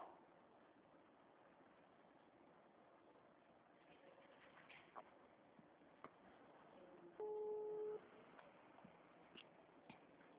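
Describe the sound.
A single short, steady telephone tone sounds after a dropped call. It comes once, faint, over a low hiss of line noise with a few scattered soft clicks.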